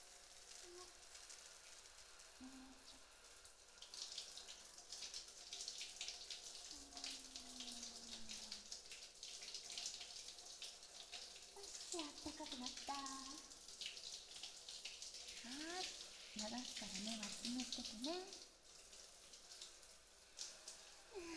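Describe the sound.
Water pours steadily to rinse shampoo out of someone's hair. The soft, continuous splashing stays faint throughout, with brief murmurs of voice over it in the second half.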